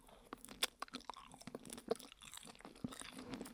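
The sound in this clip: Crunchy chewing of food just before vinegar is added, with many crisp, irregular bites and mouth noises, fairly quiet and without talk.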